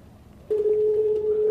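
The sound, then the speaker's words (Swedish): A telephone ringing tone while placing a call, one steady mid-pitched tone lasting about a second over faint background hiss. “efter intervjun med Janne Ranninen, men jag beslutar mig för att ringa upp honom för att få reda på vad det här kan handla om.”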